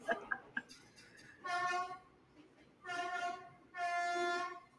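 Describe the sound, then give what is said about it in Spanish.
A train sounds its horn as it approaches: three loud, sustained, bright, harmonic blasts, the last one the longest. A few short clanks come before the first blast. “Voy, que viene el tren.”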